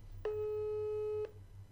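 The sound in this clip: A telephone call tone: a single steady mid-pitched beep lasting about one second, over a faint low hum, with no voices.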